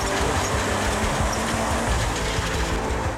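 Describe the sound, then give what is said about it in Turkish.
Heavy rumbling and grinding from a semi-truck that keeps sliding backward as it is pulled out to free a container: a loud, dense, continuous roar with no pauses. “Tır sürekli geri kayıyor. Biz onu tamamen çıkarmaya çalışıyoruz ki konteynerimizi alabilelim.”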